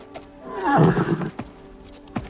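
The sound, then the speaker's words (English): A chestnut horse with a white blaze whinnies in a stable, one loud, raspy neigh that falls in pitch. A few faint knocks or shuffles follow. “The first girl smiles at a chestnut horse with a white blaze on its forehead.”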